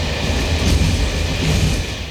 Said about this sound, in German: Heute Morgen im Zug, kurz vor Meißen.